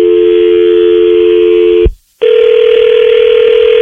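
An incoming telephone call rings as a loud, steady electronic tone that cuts out for a moment, then returns at a slightly higher pitch.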